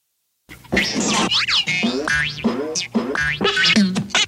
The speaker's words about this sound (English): he fumbles his tricks, and you also get this Rankin Bass, you know, cacophony of sound effects.